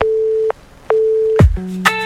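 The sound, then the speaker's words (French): Electronic answering machine jingle on a radio morning show's phone line: a steady mid-pitched tone, a short pause, the tone again, then a falling swoop and a few higher electronic beeps, loud and alone. “C'était le jingle du répondeur.”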